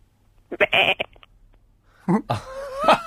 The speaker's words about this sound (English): What was that? I believe that was a sheep being murdered.